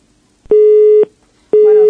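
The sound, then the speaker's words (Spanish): Telephone busy tone after a dropped call: two identical steady electronic beeps of even pitch, each about half a second long, separated by a short silent gap and heard alone. “Se nos ha cortado la llamada”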